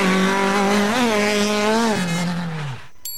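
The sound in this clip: Car tires screeching as a driver brakes too late, one long loud squeal that wavers in pitch, slides downward near the end and cuts off abruptly.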